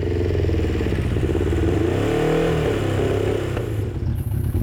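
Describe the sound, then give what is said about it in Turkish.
A carburetted engine idling roughly, firing on only two or three cylinders: a loud, lumpy, uneven drone running continuously through the whole stretch. “Şu an jikli açık mı? İki silindirle çalışıyor, belki üç.”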